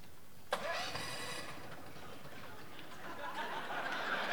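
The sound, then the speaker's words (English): A Honda 11,000 generator engine is cranked to start: a sudden sharp pull at the outset, then several seconds of faint, rough mechanical churning. “we do have a generator here. It's the Honda 11,000. And I'm going to crank it just to make sure it works here.”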